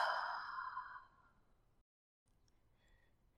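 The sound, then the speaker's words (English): A single slow, breathy exhale is heard during a deep-breathing relaxation exercise. It is soft and fades over about a second into near silence. “Take 3 deep breaths, inhaling and exhaling.”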